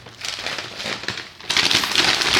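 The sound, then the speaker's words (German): A slim parcel in a paper envelope is torn open, giving dry crinkling and ripping noise. The rustling continues throughout and grows noticeably louder about halfway through, with no talking. “Und dann haben wir ein Paket bekommen und ich weiß noch überhaupt nicht, was drin ist. Ich reiß das jetzt quasi auf.”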